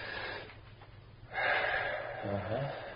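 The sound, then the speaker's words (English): A deep breath drawn in and let out during a hypnosis session, a soft breathy rush that swells and then trails off, with faint voice-like sound beneath it. “Breathe deeply”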